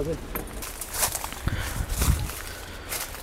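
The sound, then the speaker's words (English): Footsteps crunching over dry leaves as someone walks inside a place, a few irregular rustling steps of moderate loudness, with faint voice sounds behind them. “I'm inside the place. You can hear me walking over the leaves.”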